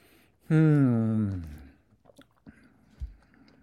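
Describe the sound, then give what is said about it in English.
Someone chews a cola-flavoured gummy candy; a drawn-out hummed vocal tone gives way to a few soft, quiet mouth clicks and sticky chewing sounds. “Now I'm eating a second one. It feels like I've eaten some sort of gummy and then washed it down with Coke.”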